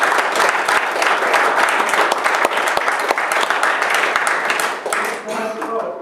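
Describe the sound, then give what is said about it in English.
A church audience applauds with a steady wash of many clapping hands and voices mixed in, easing off toward the end. “Give us a lady a hand.”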